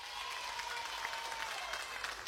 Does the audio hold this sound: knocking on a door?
no